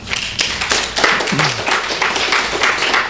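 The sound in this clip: A small audience claps in welcome as an author on Social Security is introduced at a book talk. The claps are scattered and individually distinct, forming light, uneven applause with soft thuds mixed in.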